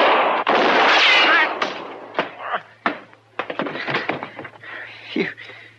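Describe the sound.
Gunshots in a radio western drama: a loud, roaring opening blast followed by several sharp cracks and thuds at uneven intervals, loud throughout.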